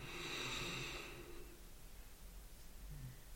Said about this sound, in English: You get into a nice rhythm of breath in